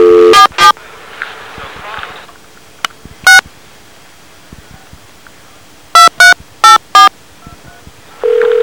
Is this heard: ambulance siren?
no